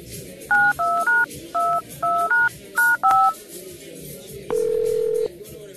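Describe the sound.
Telephone keypad dialing tones as a regular phone call is placed: a quick run of about eight short, clear beeps, then one longer steady tone, all over a faint background hiss.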